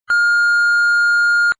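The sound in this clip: A single electronic beep tone, loud and steady at one unchanging pitch, holding for about a second and a half on its own before cutting off cleanly.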